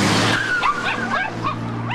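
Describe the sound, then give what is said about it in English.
Tire squeal as a Mercedes brakes sharply on a road, a high wavering screech riding over a steady low engine drone and lasting the full two seconds. “She breaks sharply as the old lady with the terriers walks into the road in front of them.”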